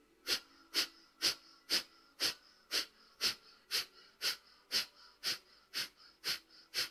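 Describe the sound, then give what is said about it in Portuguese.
During a guided breathing exercise, a person takes 14 quick, forceful breaths through the nose in an even rhythm, each a short hissy, wheezy burst about half a second apart. “É isso, e vamos agora fazer o segundo ciclo. Inspiramos a meio caminho e começamos.”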